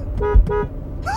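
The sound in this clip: Two short car horn toots in quick succession, bright buzzy honks of equal pitch, heard alone without talk.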